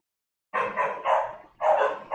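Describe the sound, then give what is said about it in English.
A dog barking outside in a few loud, sharp bursts after a brief silence, each burst made of rough, mid-pitched barks with short gaps between them. “If I get up and go outside, that dog's gonna stop barking.”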